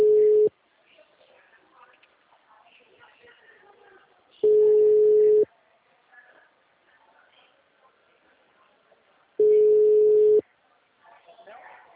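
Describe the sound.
Ringback tone of an outgoing telephone call ringing out: three steady, single-pitch beeps of about a second each, spaced at regular intervals of roughly five seconds. Faint background noise fills the gaps.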